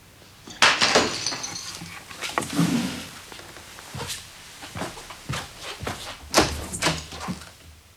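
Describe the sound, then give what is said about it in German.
A flour jar falls and breaks: a loud crash followed by many smaller clattering knocks and rattles as the pieces scatter, with no talk. “Dir ist der Mehltopf hingefallen.”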